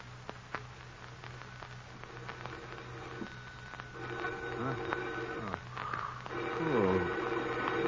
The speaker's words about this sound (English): Phone. Who could be calling at this hour? Now, where's that phone?